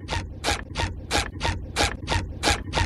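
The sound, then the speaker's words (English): Squeaky cartoon footsteps made by alternating a high balloon squeak with a low balloon creak, a quick, even run of bright rubbery squeaks in a steady walking rhythm, with no talk. “Those are the iconic squeaky footsteps of SpongeBob SquarePants. The sound design team created those using a high balloon squeak and a low balloon creak, which alternate from left to right.”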